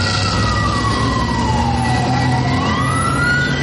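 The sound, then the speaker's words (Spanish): A fire engine's siren wails as the truck drives through the streets of Manila toward a burning house. The loud, continuous tone dips in pitch and then climbs again over a steady engine rumble, with no talking. “En las calles de Manila un camión de bomberos avanza.”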